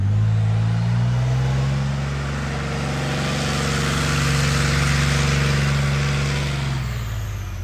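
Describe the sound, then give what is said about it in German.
A heavy diesel armoured recovery tank is shown off at a military training ground open day. Its engine gives a loud, steady low rumble that swells slightly and then eases near the end, with no talk. “hier wird es jetzt wieder laut und es riecht nach Diesel. Das heißt, hier wird jetzt schweres Gerät vorgeführt. Die Heeresinstandsetzungslogistik, kurz HIL, hat hier gerade eine Vorführung und zwar vom sogenannten Bergepanzer.”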